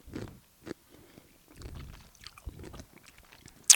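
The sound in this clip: Biting and chewing a large, crunchy taco-flavored chip: faint, irregular crunches and snaps with short pauses between, ending on a sharp crisp crack.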